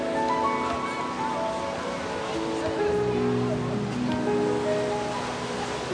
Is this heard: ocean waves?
yes

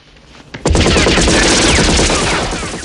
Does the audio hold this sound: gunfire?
yes

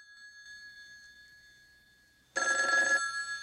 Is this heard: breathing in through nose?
no

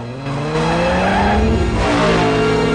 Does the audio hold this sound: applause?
no

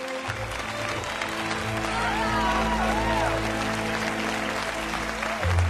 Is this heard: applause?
yes

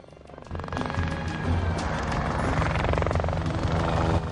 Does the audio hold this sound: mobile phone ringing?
no

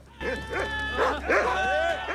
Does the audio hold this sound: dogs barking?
yes

